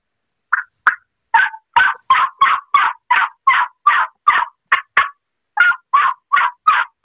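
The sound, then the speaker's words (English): Loud turkey yelping made by a person on a Woodhaven Custom Calls modified cutter mouth call: a long series of about twenty sharp, evenly paced yelps with one brief pause midway. “This is from Woodhaven Custom Calls. This is my modified cutter. It's in our mouth call line. But I'm going to do some yelp, some regular yelping.”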